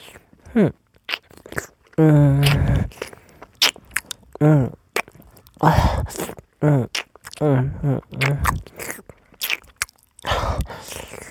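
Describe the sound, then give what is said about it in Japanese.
Crunchy food being bitten and chewed, with many crisp, crackling bites and munches in uneven bursts. A voice speaks softly between them. “僕の大好きな君。たくさん食べてあげようね。”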